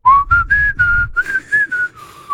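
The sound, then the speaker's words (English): A person whistles alone in a string of short, clear sustained notes, whistling while both breathing in and breathing out. The pitch stays mid-high, edging up slightly and then drifting back down, and the notes are loud with brief gaps between them. “I can whistle and breathing in and breathing out. Do it.”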